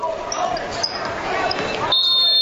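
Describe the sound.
A basketball is dribbled on the court during a high school boys' game, its bounces mixed into a continuous wash of crowd noise and voices.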